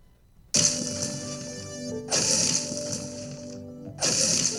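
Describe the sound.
A pickaxe strikes stone in a video game three times. Each hit is a sharp, bright, gritty crack that rings and then decays over a second or so.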